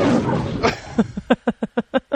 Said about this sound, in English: That was a tiger, by the way.